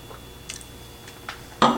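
A person tastes wine, with a few faint mouth clicks and small sips, then a louder, brief slurp at the end.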